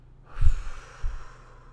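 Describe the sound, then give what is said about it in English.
A deep, steady exhale empties the lungs during a breathing exercise: one long, breathy rush of air that fades slowly, with a soft low puff near its start and another midway. No talking. “So let's just empty all out my air.”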